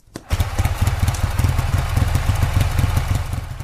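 A Ural motorcycle with sidecar starts, catching suddenly from silence and settling at once into a fast, steady, throbbing putter that stays loud throughout.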